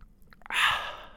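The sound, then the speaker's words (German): Fizzy Frankenbrunnen mineral water being drunk: a few faint clicks, then a bright hissing fizz that swells quickly and slowly fades. “Jetzt trinken wir, warte. Oh, es bitzelt schön.”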